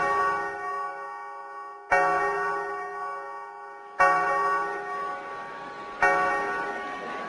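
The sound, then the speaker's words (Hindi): Clock chime striking the half hour at 12:30, four loud ringing strokes about two seconds apart, each one slowly decaying before the next, with no voices. “आखिरकार जब घड़ी ने 12:30 बजे का घंटा बजाया”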